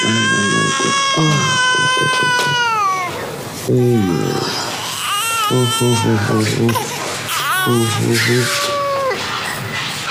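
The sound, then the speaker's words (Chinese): An infant cries in loud, repeated wailing bursts, each sliding down in pitch, with short breaths between cries that fill the whole stretch. “我一抱上人就不哭了。哎呀，小家伙还讹上我了。”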